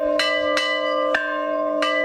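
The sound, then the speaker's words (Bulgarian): A village church bell rings festively with four resonant, bright strikes at uneven intervals. A sustained, humming overtone rings on continuously beneath the strikes, with no voices. “Днес камбаната на храма Света Неделя в село Черепово бие празнично.”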